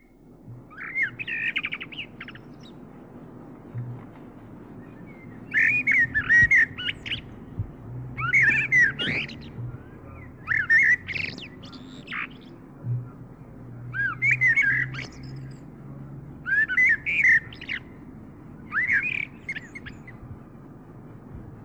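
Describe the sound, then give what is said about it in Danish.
Common blackbird song: seven clear, fluting and warbling phrases separated by short pauses, mid-to-high pitched, over a low steady background hum. “solsort.”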